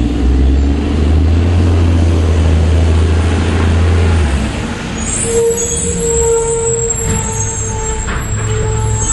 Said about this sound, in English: That's some good trash truck audio